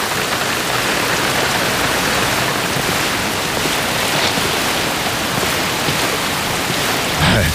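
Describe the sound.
Rain falls as a constant, even hiss of dense drops, unbroken and fairly loud from start to finish, with no voices.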